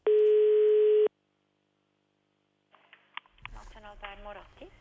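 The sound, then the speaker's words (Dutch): A telephone tone heard while calling restaurants in Switzerland: one steady, loud, buzzing tone lasting about a second. Silence follows, then talk begins. “We bellen even met een paar Zwitserse restaurants.”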